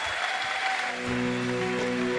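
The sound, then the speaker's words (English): An audience bursts into steady applause for a guest performer at a faith gathering, a dense wash of clapping that holds level throughout the short stretch. “Let's put our hands together for him and thank you very much.”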